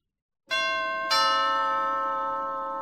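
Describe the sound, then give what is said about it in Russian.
A doorbell rings at an apartment door with two struck chime tones in quick succession. Each tone is clear and bright, and the ringing lingers and slowly fades with no voices. “В 10:04 раздался звонок, и сенсей проворчал.”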